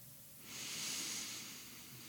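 A slow breath is drawn in through the nose during a guided belly-breathing exercise. The soft, airy hiss swells after about half a second, then eases off, faint and alone.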